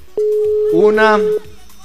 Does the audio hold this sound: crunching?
no